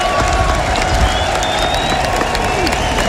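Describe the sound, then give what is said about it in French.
Crowd cheering and applauding after the Marseillaise, sung by a female voice at an afternoon gathering in Mayenne; a dense, continuous roar of clapping and voices that holds steady and loud throughout. “Et la clameur du public.”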